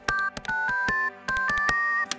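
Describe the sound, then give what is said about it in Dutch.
Telephone keypad tones as a number is dialed: a quick series of clean dual-tone beeps, some running together and others separated by short gaps, with a few brief clicks between them. “Ik ga haar bellen.”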